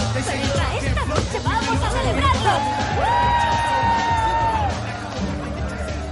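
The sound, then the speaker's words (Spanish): A group of people cheering as reporters walk into a lounge where a television is on. Whoops and shouts rise over busy overlapping chatter, with one sustained, high-pitched yell standing out. “Entran al salón. Todos les vitorean con el televisor encendido.”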